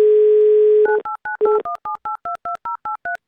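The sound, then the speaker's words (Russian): A continuous telephone dial tone, then a quick, evenly spaced run of about a dozen keypad beeps as a phone number is dialed. Each short two-note tone is crisp and loud, separated by brief gaps. “Набрали номер Алексея из Санкт-Петербурга, 2083.”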